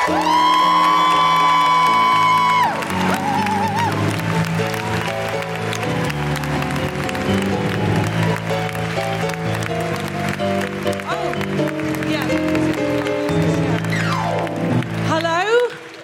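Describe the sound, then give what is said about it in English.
Enthusiastic applause from a live comedy audience welcoming a comedian to the stage, with loud whoops, shrill whistles and cheering over continuous clapping that stays strong throughout. “Put your hands together and make enormous, wonderful, welcoming, woo-hooing noises for the excellent Bridget Christie!”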